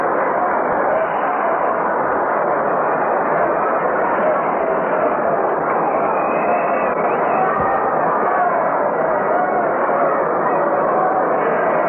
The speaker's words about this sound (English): Crowd just let out a roar.